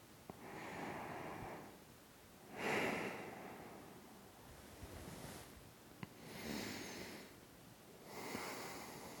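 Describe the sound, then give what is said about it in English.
Slow, deep human breathing: a few long, airy breaths that swell and fade in an even rhythm, soft and quiet with no talking. “Okay, deep breaths. I'll take deep breaths.”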